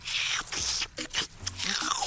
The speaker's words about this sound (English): What you just licked off of your tentacle is subspace cleaning foam.